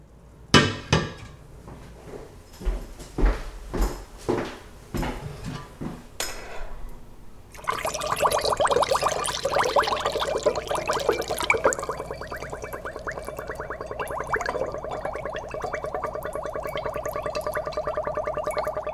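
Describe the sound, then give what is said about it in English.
Wine draining through a funnel during homemade wine making: a run of sharp, evenly spaced knocks gives way to a loud, steady bubbling gurgle of liquid that continues to the end. “This is wine draining through a funnel.”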